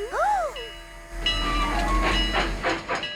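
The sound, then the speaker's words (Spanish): A train pulls away with hissing and a loud, rumbling clatter. The clatter thickens after about a second into a rhythmic, continuous rolling sound. “¡El tren se está yendo! ¡Alcáncenlo!”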